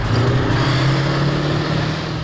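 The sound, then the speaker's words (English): A Warrior armoured vehicle drives laps around an arena at a tank festival. Its engine gives a loud, steady drone with a strong low hum that holds nearly level throughout. “Opening the annual Tank Fest celebration in Dorset, Warrant Officer Behari drove laps around the arena in his old workhorse Warrior. And he's come out to do this for us today for you.”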